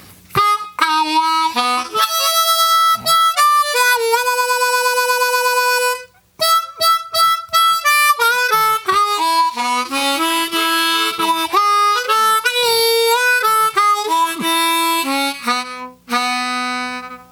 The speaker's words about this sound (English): Now, if we can put the three licks together, it sounds like this. This is the entire blues riff.